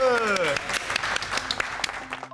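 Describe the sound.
Audience applause for a child's drawing presentation breaks out after a brief voice, with a crackle of many overlapping claps sustained to the end.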